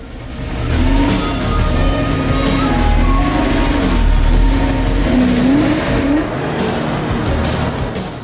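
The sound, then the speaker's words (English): A car reverses out of an airport parking space and accelerates away in pursuit, its engine a loud, sustained roar with a wavering, revving tone that holds steady throughout, no voices present. “Cindy reverses out and accelerates after Sully.”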